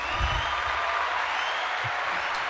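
Applause welcomes a show guest, a former Formula One driver and Le Mans winner. The clapping is a steady, even wash of sound throughout, with no talking over it.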